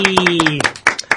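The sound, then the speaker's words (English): A few hands give another round of applause. Sharp, separate claps come in an uneven rhythm, and a voice cheers briefly over the first half. “I think another round of applause. Yay!”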